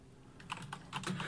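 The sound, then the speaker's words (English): Typing on a computer keyboard, a brief run of soft, faint key clicks in an uneven rhythm, growing slightly busier toward the end. “I'm just talking as I type, sorry.”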